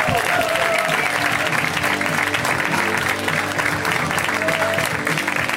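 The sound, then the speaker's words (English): An audience at a comedy show applauds and cheers to welcome the final comedian, a dense, steady roar of clapping that stays loud the whole way through. “Let's hear it for Adam Newman, you guys. Give it up for Adam. Come on.”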